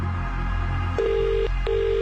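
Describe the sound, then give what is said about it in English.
A telephone ringback tone on an outgoing call: two steady mid-pitched tone bursts over a constant low hum. “One ring. Two rings. Three rings. Four rings.”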